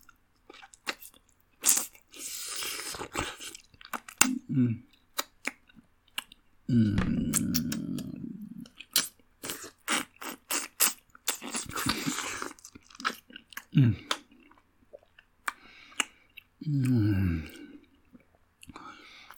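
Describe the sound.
Crunchy bites and chewing into fresh fruit, a series of crisp, irregular crunches in uneven bursts, with a few louder chomps standing out against quieter wet chewing between them.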